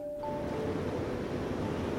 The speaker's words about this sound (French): Nous sommes ici au réservoir de Montsouris, précisément dans la salle où les aqueducs se déversent dans le réservoir. Vous entendez et vous voyez l'ensemble de ce faramineux débit d'eau de source